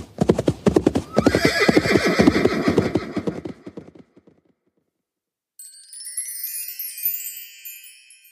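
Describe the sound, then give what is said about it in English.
A horse's hooves clip-clop at a steady trot, then fall silent before the horse gives a loud, high-pitched whinny that wavers and trails off. “Then her loud whinny echoed through the fields as she faded away”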